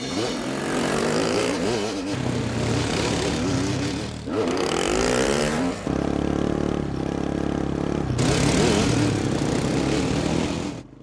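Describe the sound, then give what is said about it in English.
An ATV and a dirt bike ride overgrown forest dirt roads, their engines droning loudly and steadily and revving up and down in pitch as they throttle and shift. “arranges to borrow an ATV and a dirt bike from the owner of the rifle range, and we hit the road.”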